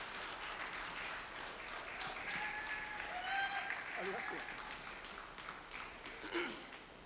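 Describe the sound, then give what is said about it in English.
Faint applause from a church audience welcoming a guest speaker, a soft, continuous patter of hands with some voices mixed in. “So, who's excited? Put your hands together. Welcome the man of God.”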